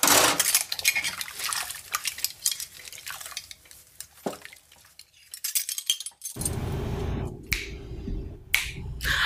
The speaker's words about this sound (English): No, you're not gonna snap in my face.